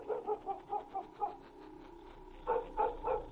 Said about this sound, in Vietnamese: Thế nhưng con chó mực xích ở dưới bếp lại một lần nữa sủa lên nhấm nha nhấm nhặng.